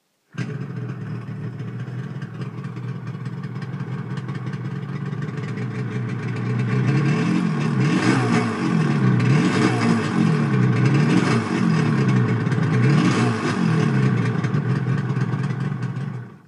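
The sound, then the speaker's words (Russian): A truck engine rattles and rumbles in a steady, low, throbbing drone. Midway it grows louder, with a wavering, surging tone as though revving, then holds that level to the end. “Стоящий перед Рейнером грузовик затарахтел, и из трубы вырвалось черное облако дыма.”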